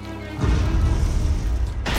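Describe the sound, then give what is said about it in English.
A series of small explosions erupts in a ship's engine room: after a short, quieter start, a dense low rumble surges in and keeps churning, with a fresh sharp burst just before the end. “A series of small explosions erupt in the engine room.”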